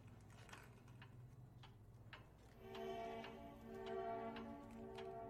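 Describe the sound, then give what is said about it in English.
Soft, regular ticking from a cat-shaped wall clock in a kitchen. Evenly spaced faint clicks run throughout, and a steady tonal hum joins about halfway through, slightly louder. “then turns to the cat clock on the wall.”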